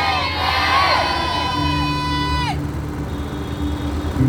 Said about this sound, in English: You believe it, shout the louder,